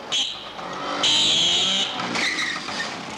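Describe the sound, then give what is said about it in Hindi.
A scooter arrives with a high, piercing tonal squeal in a few bursts over a steady motor noise, loud and without talk. “ये उसी के scooter की आवाज है।”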